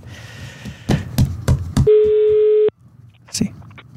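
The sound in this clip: Outgoing-call telephone ringback tone: a few soft clicks, then one steady, low-pitched tone burst lasting under a second before cutting off, followed by a short quiet sound.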